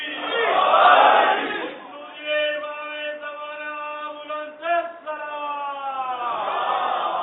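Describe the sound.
A crowd at a religious gathering answers the takbir call: a loud unison shout from many voices, followed by a long, sustained collective chant with a brief louder swell partway through.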